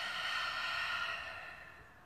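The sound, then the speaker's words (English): A deep breath in a relaxation exercise, heard as a single long, airy, breathy sound that starts full and gradually fades over about two seconds. “I invite you to breathe deeply in your nose and out your mouth.”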